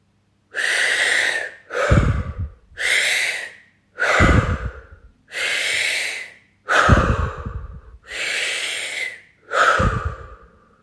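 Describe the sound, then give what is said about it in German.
Deep, forceful breathing in and out through an open mouth, loud and clearly audible. Breaths repeat in a steady rhythm of airy inhales and throatier, rumbling exhales, with no talking. “Du saugst den Atem tief über den Mund kraftvoll und hörbar bis ganz tief in den Beckenboden. Die Ausatmung erfolgt ebenfalls über den geöffneten Mund.”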